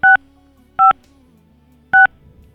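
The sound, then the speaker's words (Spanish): Telephone keypad tones while dialing a number: three short, loud, identical beeps, the first two closer together and the third after a longer pause, over a faint hum. “Vamos a volverlo a intentar. Vamos a comunicarnos con Julio.”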